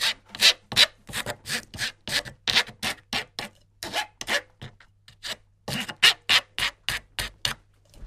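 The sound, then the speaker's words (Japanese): A file rasps across the splintered cut end of a pipe, smoothing the rough edge in many rhythmic back-and-forth strokes with a few short pauses, loud and dry with no talk. “今切ったところがささくれだってしまって手に刺さると危ないので、ええ、そこを削って”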